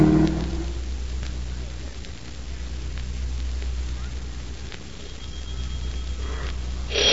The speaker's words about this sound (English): Taxi. Drive to 5423 North Avenue. Step on it, will you? I want to get there as quick as I can. Now, make it snappy, driver.